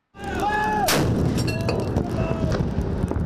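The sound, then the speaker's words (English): Four 25-pounder howitzers fire a 21-gun salute at a National Day Parade across the Kallang precinct. One loud, sharp blast rolls out, followed by fainter, smaller reports. “Come 9 August, four 25-pounder howitzer guns on the Mobility 3rd Generation Draft will fire a 21-gun salute.”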